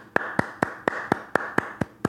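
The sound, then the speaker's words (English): Hands clapping nine times in an even, steady beat, each clap sharp and fairly loud, with no talk over them. “Round of applause.”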